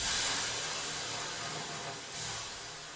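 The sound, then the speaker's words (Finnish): Water thrown onto hot sauna stones sends up a loud, steady hiss of steam that fills the whole clip, easing slightly partway through and then swelling briefly again near the end, with no voices. “vähän lisää löylyä.”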